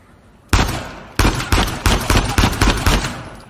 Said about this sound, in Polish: A jakbym tu strzelił w to?